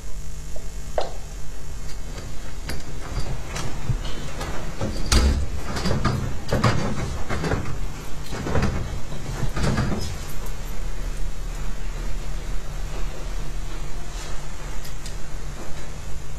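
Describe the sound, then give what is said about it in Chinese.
Someone tries to open a locked door at home, making a series of rattling clunks and knocks from the handle and door over constant background noise. “家里门锁换了吗？门怎么打不开呀？哎呀，打不开。”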